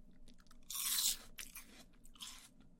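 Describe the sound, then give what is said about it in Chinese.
Crisp crunching as someone bites into and chews an apple from Xinjiang: one loud bite, then softer repeated chewing crunches, fairly faint and with no talk. “来，好，我也吃。”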